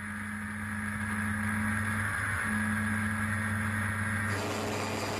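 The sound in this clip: Steady engine drone from a modified, production-based Ford Fiesta rally car with flared fenders and a turbo, running in sixth gear at over 100 mph on sheets of ice; a continuous, fairly faint hum with a slight tonal shift midway and a duller tail.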